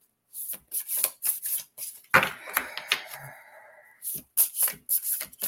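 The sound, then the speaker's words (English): A card is pulled from a deck during a card reading: a dry sliding, rustling burst in the middle, framed by a few soft, crisp taps and flicks before and after. “So let's see what we have for Craig. Pull a card for you.”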